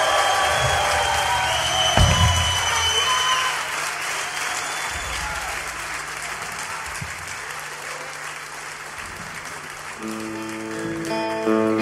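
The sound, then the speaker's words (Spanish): Crowd applause and cheering for a rock band stays steady and dense for most of the stretch. Near the end, music with sustained tones rises in under the clapping. “Bueno, un aplauso.”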